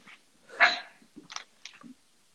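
A dog barks with one loud, sharp bark, followed by a few softer, shorter yaps and whines. No one speaks.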